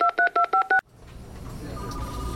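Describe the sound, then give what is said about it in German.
A telephone keypad dials a number in five quick, evenly spaced dual-tone beeps, loud and clean, cutting off abruptly before a low, rising line noise. “Und jetzt möchte ich doch mal versuchen, ob ich die Band erreiche und nehme doch mal das Telefon zur Hand.”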